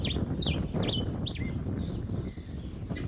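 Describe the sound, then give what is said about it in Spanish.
A bird sings four quick, high, downward-sliding chirps in a row, then a thinner, drawn-out call, all over a low, steady rumbling background. “Las aves cantan o emiten sonidos por distintas circunstancias.”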